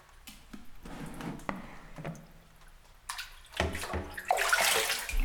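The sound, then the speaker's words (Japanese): Hot running water rinses a person, making a continuous splashing flow with soft squishy drips. The flow rises and falls, then turns louder and steadier in the final seconds. “終わりましたので、お湯で流させていただきますね。”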